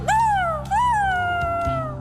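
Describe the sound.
Dogs whimpering and howling in two long, high, tonal whines. Each cry starts sharply and then slowly falls in pitch, the second trailing off more softly. No barking or voices are heard.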